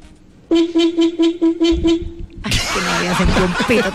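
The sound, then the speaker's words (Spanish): A car horn honks in a quick, even series of about six short toots. People then break into laughter and talk. “Voy a esta hora a poner varios pitos al aire.”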